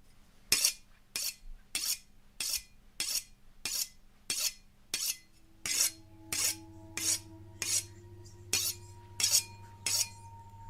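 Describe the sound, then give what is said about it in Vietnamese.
A butcher knife is drawn repeatedly across a whetstone, making many short, gritty, metallic scraping strokes at a steady, even back-and-forth pace, fairly quiet with no other sound. “Cầm con dao bầu trên tay, liếc liếc qua cái cục đá mài”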